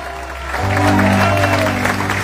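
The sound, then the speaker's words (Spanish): An audience applauds in a church: a burst of loud, steady clapping starts just after the opening moment and holds at full strength to the end. “fuerte aplauso al Cristo de la gloria”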